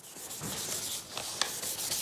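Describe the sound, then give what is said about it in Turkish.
Hand sanding of a piece to remove fine scratches before refinishing. Steady, dry rasping strokes of abrasive paper rub continuously on the surface, with no talk. “İlk olarak parçayı zımparalayacağız. İnce çiziklerden böylece kurtulacağız.”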